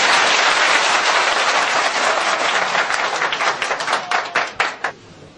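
Dense audience applause holds steady and loud, then thins toward the end into a few separate, sharper claps before dying away.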